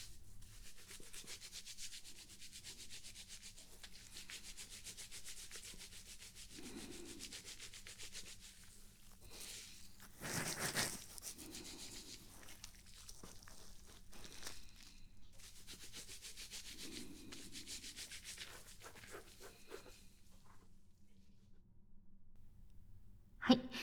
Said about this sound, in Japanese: シャンプーはこれでおしまいです。